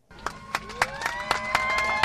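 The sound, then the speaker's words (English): A crowd cheers and claps in steady rhythm as AirTran's last Boeing 717 flight takes off from Atlanta's Hartsfield-Jackson International Airport, bound for Tampa. Evenly spaced, sharp claps beat under sustained, rising whoops and shouts. “Cheers erupted as AirTran's Boeing 717 took off Sunday night from Atlanta's Hartsfield-Jackson International Airport, bound for Tampa.”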